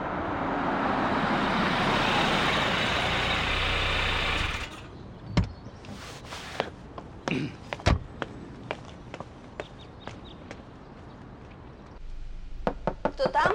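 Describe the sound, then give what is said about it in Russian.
A car arriving at a country estate: a steady engine drone runs for several seconds and then cuts off, leaving a scatter of sharp knocks and clicks at uneven intervals against a quiet background. “В усадьбу приехала машина Юрия.”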